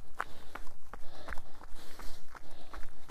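Footsteps of a runner on a walk break after climbing the first hill of a half-marathon training run. The steps fall in a steady, even rhythm of soft thuds, many in a row at a relaxed pace.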